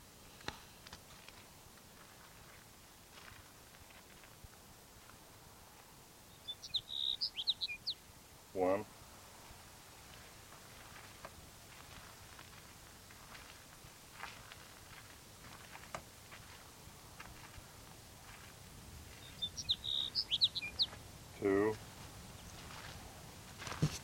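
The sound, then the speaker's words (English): Sage Sparrow calls come as faint, thin, high chirps in two brief clusters, well apart, with a few soft thumps in between. “Sage Sparrow number 3.”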